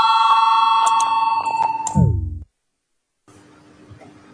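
A chairman's bell rings in a parliamentary session to call a vote. A steady, bright ringing lasts about two seconds, then drops to a falling low tone and cuts off into silence, followed by faint room noise.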